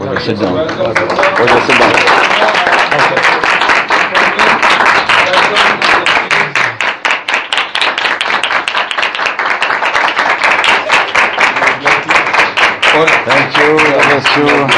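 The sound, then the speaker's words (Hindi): Audience clapping at a gathering honoring two guests: a long run of steady, rhythmic claps in unison, loud and even, with voices continuing underneath the beat. “तो आपकी भरपूर तालियों में मैं भाई दोनों को”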